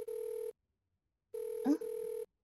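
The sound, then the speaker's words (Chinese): A telephone rings with an incoming call: two steady electronic ring tones, the second longer than the first, separated by a short silence. “说着就来了，宝贝的电话。”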